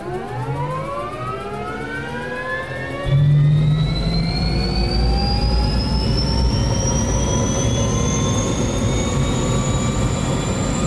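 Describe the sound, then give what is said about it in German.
An aircraft engine starts automatically from a start switch, its loud whine climbing steadily in pitch as it spools up, with a deeper roar joining in about three seconds and building under the rising tone. “dann haben wir in der Mitte einmal unseren Startschalter, danach wird er gleich vollständig automatisch starten.”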